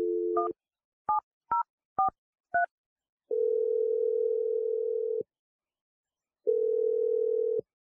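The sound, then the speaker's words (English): Telephone number dialled: a brief steady tone, then five short touch-tone beeps in quick succession, followed by two long, flat ringing tones separated by a pause of silence. “I'm gonna dial his number right now.”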